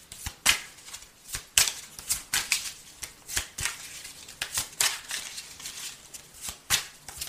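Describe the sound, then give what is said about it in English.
Playing cards are split into three piles and then drawn. Many crisp slaps, flicks and riffles follow one another quickly and irregularly, all fairly quiet, with no talk. “I'm going to split these in three. I always split in three before I start pulling the cards.”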